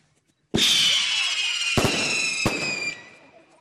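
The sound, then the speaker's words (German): A firework from a pyrotechnic show at a sports club celebration in Kühnheide shoots up with a sudden loud whoosh and a long, high whistle that slowly dips in pitch. Two sharp cracks follow before the whistle fades out. “Sie merken, wir sind in Kühnheide und da gehört eine Pyroshow natürlich immer dazu.”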